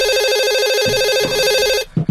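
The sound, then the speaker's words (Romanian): A home telephone rings late at night in a house with two children, giving a loud, steady, trilling electronic ring that cuts off near the end, followed by a couple of short, low knocks. “Cine sună la ora asta? Probabil că e ceva urgent.”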